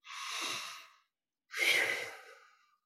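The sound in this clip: Two deep breaths taken slowly during a guided meditation. Each is a long, airy whoosh lasting about a second, with a short silent pause between them and no talk.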